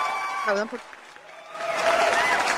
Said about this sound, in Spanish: aplausos.